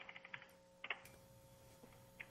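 Typing on a computer keyboard while entering a phone number: a few faint, light key clicks in short scattered bursts separated by quiet gaps.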